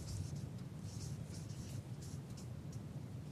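Faint handwriting, a pen scratching out many short strokes against a soft hiss of background noise.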